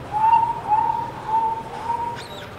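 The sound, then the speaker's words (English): A professional bird caller whistles an imitation of a sparrow call, four short, level, clear notes at an even pace over a soft noisy background. “Professional bird caller. They have me go out with them on hunting trips and stuff all the time. You know, get out there and do the sparrow,”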